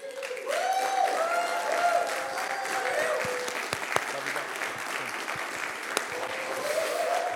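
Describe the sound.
An audience at a worship service applauds to welcome a speaker, a continuous, fairly soft wash of clapping that holds level throughout.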